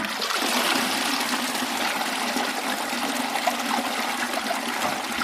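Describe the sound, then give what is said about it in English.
A toilet flushes with water released from a tank mounted above the bowl, a loud, steady rush of water that keeps pouring without a break. “So Harrington's toilet was just a nice little flush that came from a tank of water above the toilet.”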